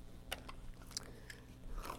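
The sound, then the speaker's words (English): A voice imitates munching on a cookie in a playful monster style, making a few crisp crunching and biting bursts spaced irregularly over a steady low background. “How's Cookie eat the cookie? How's Cookie Monster do it? Yeah, just like that.”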